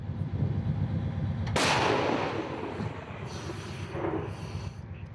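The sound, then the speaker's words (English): An artillery gun fires once in an open field at tank units. The blast is loud and sharp and trails into a long, rumbling decay over a low, steady background rumble. “The soldiers have to bring the gun into an open field to use it. They're targeting Russian tank units, along with their artillery, only about 8 kilometers from here. The soldiers warn us that it's about to get extremely loud.”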